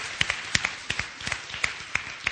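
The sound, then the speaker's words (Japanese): Scattered audience clapping rises at a New Year church gathering in Akarenga: a few sparse, separate hand claps in an uneven rhythm, faint and sharp, with quiet gaps between them. “Let's give the Lord a big clap.”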